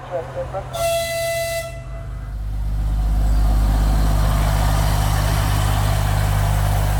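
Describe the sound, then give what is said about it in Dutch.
A small diesel train pulls out of a station in Kharkiv on a weekday morning. One horn blast lasting about a second comes first, then a low diesel rumble swells and holds steady and loud. “De trein tuft het station uit, richting bevrijd gebied, naar Balaklia.”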